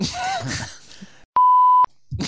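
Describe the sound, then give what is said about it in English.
A phone's text message notification gives one short, clear electronic beep of steady pitch, lasting about half a second. Talking can be heard before it, and a voice resumes just after it. “She actually just texted me.”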